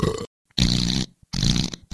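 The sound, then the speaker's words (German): A person burps and farts on command during a mock medical check: a few loud, rough, low bursts separated by short silences. “Mal rübsen und furzen.”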